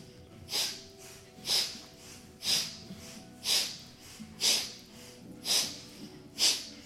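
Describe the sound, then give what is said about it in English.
Rapid breathing exercise with twisting: seven sharp, forceful exhales at an even pace of about one per second, each a short breathy burst with quiet inhalation between. “So we're twisting to the left, passive inhalation, out to the right and breathe out. Good. And we're going to speed it up. So getting it nice and rapid.”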